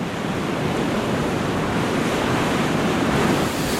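Stormy wind and breaking waves at sea, as heard aboard by sailors on a weeks-long voyage: a loud, steady, unbroken roar of rushing air and surf with no voices.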